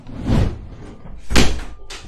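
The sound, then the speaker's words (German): A door swings shut with two dull, broad thuds, the second louder than the first, without any talk. “Die Tür geht zu, weil ich rein wollte.”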